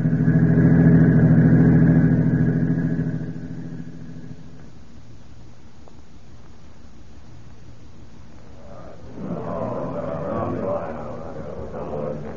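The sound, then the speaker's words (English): A car engine rumbles loudly as the car drives off, its low drone fading away over a few seconds into quiet before people begin talking. “We'll drive Larry down to the counter spy field office.”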